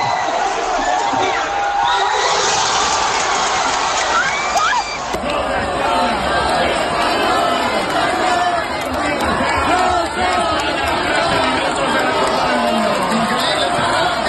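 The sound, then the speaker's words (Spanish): A crowd outdoors in Gijón cheers and shouts after a Spain goal that secures a World Cup place. Many excited voices overlap in sustained, boisterous celebration, with chatter mixed in throughout. “Son sonidos, lo dicho, del patio de la laboral o del Parque Hermanos Castro en el momento del gol”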